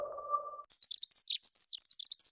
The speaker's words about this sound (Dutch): Word je ook zo blij van de eerste hegemus?